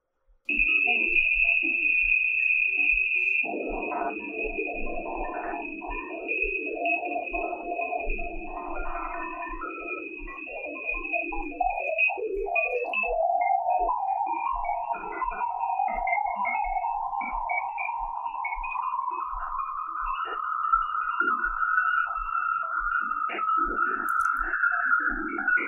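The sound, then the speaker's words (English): Radio and plasma waves from the magnetosphere of Jupiter's moon Ganymede, converted to sound: a steady high tone, warbling chirps early on, then a whistling band that slowly rises in pitch until the end. “Now remember, this audio comes from the radio and plasma waves that were detected in the magnetosphere. So this is the sound of Jupiter's moon, Ganymede.”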